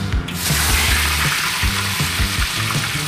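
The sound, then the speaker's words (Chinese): Oil sizzles in a pan as salmon fries, making a continuous bright hiss with low, uneven clatter underneath. “我们煎的时候啊，一定是要注意好油温”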